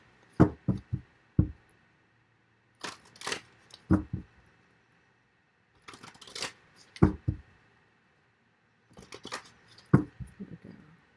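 Tarot cards are shuffled and drawn in four separate bursts of crisp snapping and flicking, each a quick cluster of sharp clicks, with quiet pauses between them.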